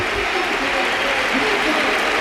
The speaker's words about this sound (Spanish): Esto se pone en pie, se pone en pie el Ramón Sánchez Pizjuán para despedir a Lamine.